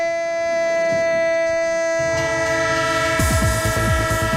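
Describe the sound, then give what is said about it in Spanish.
Train horn blowing steady, sustained tones while rolling wheel-on-rail clatter joins in and grows louder and busier toward the end, with no voices. “tren de Radio Estadio, el tren con vagones de fútbol, aquí vagones y balones”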